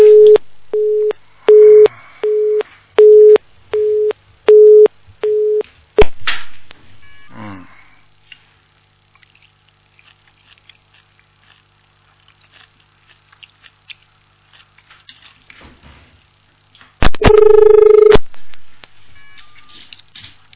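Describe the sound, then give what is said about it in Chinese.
A telephone busy signal sounds after a dropped call line: a loud run of evenly spaced, identical beeps, then near silence with faint clicks, and later a brief louder burst of the same tone. “电话线断了。”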